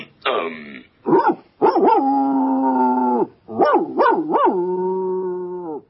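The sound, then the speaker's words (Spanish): A dog's howling, whining and barking, heard as a series of loud, wavering vocal tones. Short yelping bursts alternate with long, sustained howls, and there are several quick warbling rises and falls. “Un aullido largo, dos cortos, un gemido y un guau.”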